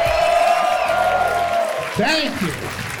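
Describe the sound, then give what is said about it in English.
A New York City comedy audience cheers and applauds in a steady, loud roar while a voice calls out over the noise. “New York City, make some fucking noise.”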